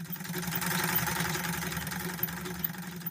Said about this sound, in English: That's why I came here to sew tonight. This machine works with a pedal, which is why I came here.